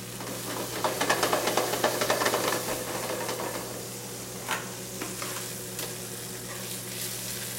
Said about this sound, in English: So where those are cooking away there, and I'll just let those continue to cook.